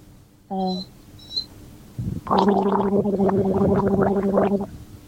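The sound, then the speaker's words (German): Loud gargling with a sip of water, a steady bubbling throat gurgle lasting about three seconds, comes just after a brief vocal sound. “Und wenn man dann danach in sein kleines Reitlehrer-Kabuff geht und einen Schluck aus seiner Flasche nimmt und einfach mal gurgelt, also laut gurgelt, ich muss mal kurz einen Schluck nehmen, dann mache ich es euch mal vor.”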